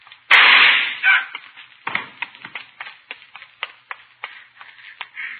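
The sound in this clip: One sharp, loud gunshot cracks out, then a trail of smaller crackling pops and thumps follows.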